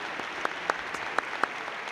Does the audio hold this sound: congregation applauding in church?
yes